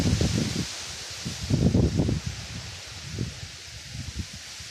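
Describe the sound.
Outdoor wind gusting in low, rumbling buffets that swell and ease unevenly, with a soft rustle like leaves running through it.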